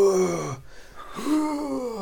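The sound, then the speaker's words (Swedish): A vocal imitation of a man screaming while working out on a gym machine: two strained, moaning shouts separated by a short breath-like pause. “han är en sån som skriker också när han tränar.”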